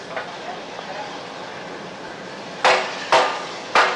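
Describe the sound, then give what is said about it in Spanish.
Hammer taps on the closing ring of a hazardous-cargo container lid: three sharp metallic knocks, unevenly spaced, stand out over a steady background hiss. “Unos golpes en el anillo y vueltas adicionales al perno asegurarán un sellado firme.”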